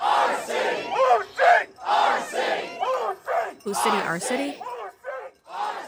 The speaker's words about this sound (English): People are there, and they're still marching around. They're protesting.